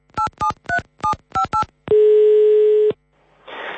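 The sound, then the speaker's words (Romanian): Six short touch-tone beeps from dialing a consulate, then a steady phone tone held for about a second that cuts off abruptly, followed by a soft hiss. “Apelat secția consulară a Ambasadei României în Republica Moldova.”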